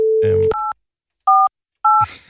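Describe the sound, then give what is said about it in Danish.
Telephone keypad tones sound as a number is dialed: three short, clear dual-pitched beeps separated by brief gaps, with a voice heard at the start and end. “Jeg ringer til Karoline Haubæk”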